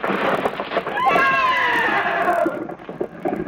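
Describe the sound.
A horse gives a long whinny that falls in pitch, heard over a rumbling, crowded mix of a stampeding herd, while people's voices shout over the din.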